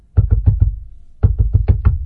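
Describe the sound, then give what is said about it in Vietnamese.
Knocking on a door in two bursts: four quick, solid raps, a short pause, then five more raps at a similar even rhythm. “Bỗng nhiên có tiếng gõ cửa kèm theo tiếng của Tùng”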